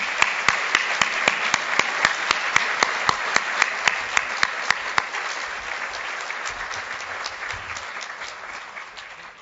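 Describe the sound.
Audience applause welcoming Canada's federal finance minister as he is introduced to speak: many hands clapping in a sustained, dense roar with sharp individual claps standing out, gradually thinning and fading over about nine seconds.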